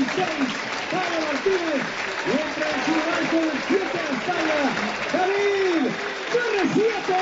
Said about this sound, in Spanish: Ojo la ovación, ¿eh? Ha habido aplausos para Paul Martínez